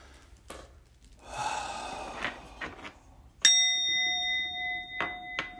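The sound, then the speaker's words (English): A big, heavy, deep breath at the close of a meditation: a long audible inhale, then a slower exhale, followed by a single bright bell ding that rings on and slowly fades. “we will close this short meditation by taking a big, heavy, deep breath again”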